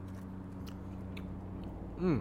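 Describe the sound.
Faint chewing of a fluffy, unfrosted maple cake with cream filling: a few soft, moist bites over low steady hum, ending with a brief voiced hum.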